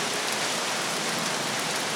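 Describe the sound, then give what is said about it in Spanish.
Heavy rain pours down during a religious service, a loud, steady, unbroken hiss that fills the whole clip with no voices or other distinct sounds. “Pero les explico porque aquí hay una tremenda bulla por la lluvia, ¿verdad?”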